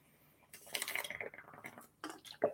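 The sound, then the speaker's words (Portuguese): Someone takes a drink of water to wet the throat: soft handling noises and sipping sounds, a short pause, then another brief swallow-like sound, all fairly quiet. “Então, aguinha aqui para molhar a garganta”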